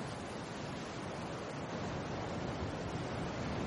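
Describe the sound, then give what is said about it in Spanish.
Sea waves wash in a steady, unbroken rush at dawn along a coast of pale sand dunes and cliffs, with no distinct breakers and no voices. “Al fondo el mar está iluminado por la primera luz de la mañana.”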